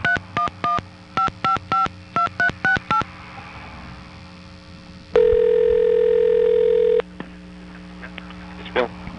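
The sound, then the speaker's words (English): Telephone keypad tones dialing a 10-digit number: ten short, even beeps in groups of three, three and four, followed by one long steady tone. “please enter the 10-digit telephone number you are calling from.”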